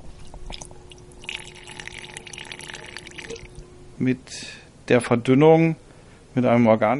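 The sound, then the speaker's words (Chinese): Faint steady pouring as solvent is added at 20% to a thick white anti-graffiti coating in a lab, a quiet liquid trickle that gives way to a voice talking. “现在我用 20% 的溶剂稀释产品，”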